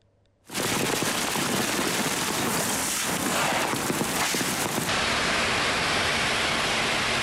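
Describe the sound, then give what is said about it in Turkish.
A sudden heavy midday rain shower pours over city streets in Ankara. After a brief near-silence it starts abruptly and becomes a loud, dense, steady hiss that holds to the end. “Ankara'da öğle saatlerinde aniden bastıran sağanak yağış hayatı olumsuz etkiledi.”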